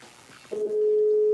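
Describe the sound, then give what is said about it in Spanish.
A telephone ringback tone sounds on an outgoing call: one steady, mid-pitched tone holds for just under a second after a moment of faint background noise. “Ya está llamando.”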